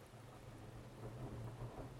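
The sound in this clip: A video game thunderstorm, with low rolling thunder rumbling under a steady hiss of rain, faint and continuous throughout.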